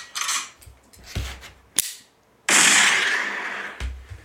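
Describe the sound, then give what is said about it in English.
Gunshot sound effect from a toy gun: a few sharp, cap-gun-like cracks and a longer hissing blast of noise, fairly quiet, with no talk. “We have a real sound effect now. It's my gun I brought.”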